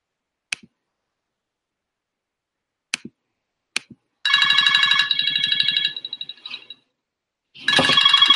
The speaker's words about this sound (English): I'm trying to see if I can dial a number that I just put into the system.